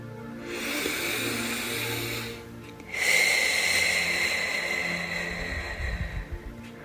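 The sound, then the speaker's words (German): A slow, deep breath in and out: a long, soft, airy inhale, a brief pause, then a longer and louder exhale that trails off unevenly over faint steady background tones. “Atme ganz tief ein und aus.”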